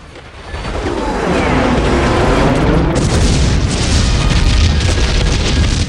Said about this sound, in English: On the outskirts of the town, Mitchell releases more bombs, which explode on a missile storage facility.